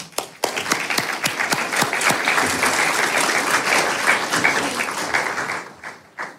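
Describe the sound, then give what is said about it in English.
Audience applause welcoming panelists onto the stage at a discussion gathering, dense sustained clapping from many hands that holds steady for several seconds before thinning at the end. “So please give a warm welcome to these panelists who will now join the stage.”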